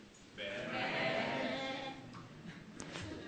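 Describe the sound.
People in a church audience imitate sheep bleating with their voices during a sermon, one sustained wavering chorus of bleats that swells and then fades into quieter murmuring.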